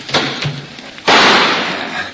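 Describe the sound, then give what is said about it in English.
A gunshot fired from a doorway up over a windowsill during a standoff: one sudden loud blast with a long noisy decay, after quieter sounds. “Let me try a shot before those jokers get smart and rush it.”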